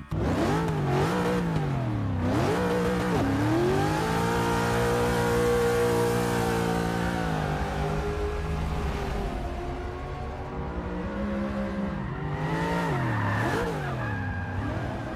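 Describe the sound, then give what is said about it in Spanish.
A powerful car speeds in reverse during an evasive-driving demonstration, its engine revving hard with the pitch rising and falling again and again while the tires squeal and skid throughout. “Hay que manejar marcha atrás así, ¿no? Mucho. Con esa bestia, ¿no? A esa velocidad.”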